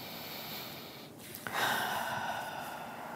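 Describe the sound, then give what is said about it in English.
One slow, airy deep breath, faint and unhurried, with a soft hiss underneath and no talking. “Let's take a good deep breath.”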